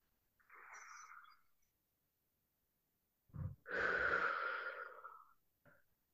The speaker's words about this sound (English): we're gonna breathe in through our nose, out through the mouth. Here we go.